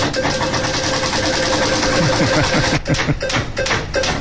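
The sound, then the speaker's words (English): A prize wheel spins for a birthday-month lotto draw. It makes a fast, continuous ratcheting rattle that breaks into a few separate, more widely spaced clicks toward the end. “Time to spin up the month wheel.”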